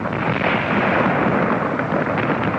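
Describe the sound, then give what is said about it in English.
Rocks falling onto a bunker half a mile from a rock blast site make a dense, continuous rumbling roar with crackling texture, loud and unbroken throughout. “You can hear rocks falling on the bunker a half mile from the blast site.”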